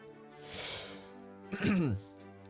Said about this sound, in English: Excuse me. It's halfway between a burp and a hiccup. Okay. A burp.